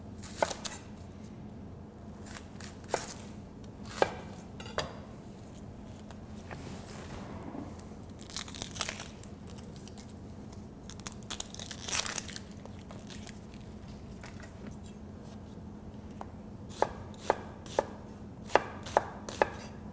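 A knife rough-chopping vegetables for a Tuscan bread and bean soup: sharp, scattered thuds on a board over a steady low hum, bunching into a quicker run of chops toward the end.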